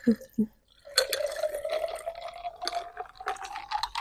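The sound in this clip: Liquid from a spilled alcoholic drink splashes and drips: two short low splats, then a steady trickling run with a faint, slightly rising tone that holds to the end.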